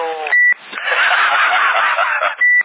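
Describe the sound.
Two short, steady high beeps over a CB radio link, one near the start and one near the end, with a long stretch of crackly static between them.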